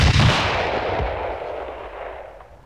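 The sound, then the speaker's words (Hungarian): A rifle shot fired at a flock of starlings gives one loud, sharp blast at the start, followed by a long rumbling tail that slowly dies away. “Lassan már fel sem rebbennek, ha rájuk lövök, pedig akkorát szól ez a puska, mint egy ágyú.”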